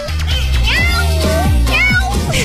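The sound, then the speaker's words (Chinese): A person imitates a cat, voicing a few loud, drawn-out meows with sliding pitch in close succession and little pause between them. “就是学猫叫那个喵喵喵的时候，手是要这样的。”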